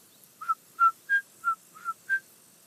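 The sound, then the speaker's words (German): Common chiffchaff song: six clear, short whistled notes at an even pace, switching between two slightly different pitches. The song is fairly faint and stands alone over quiet background hiss. “Hörst du das? Was? Den Zilpzalp.”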